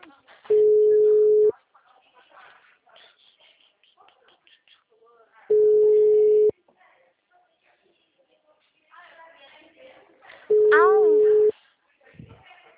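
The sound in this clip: Telephone ringing tone on an unanswered call: three long, steady mid-pitched rings, each about a second long and about five seconds apart, with people talking quietly in the gaps between them.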